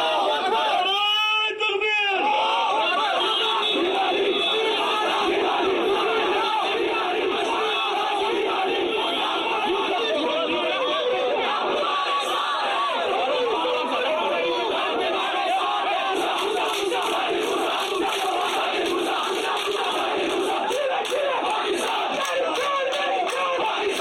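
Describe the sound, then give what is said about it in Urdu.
Crowd outside a mosque after Friday prayers chanting pro-independence, pro-Pakistan slogans, a dense, continuous roar of many voices shouting together, loud and unbroken for the whole stretch. “Gilani جب مسجد سے باہر آ رہے تھے تو وہاں جمع لوگوں نے بھارت سے آزادی کے مطالبے اور پاکستان کے حق میں جم کر نعرہ بازی کی.”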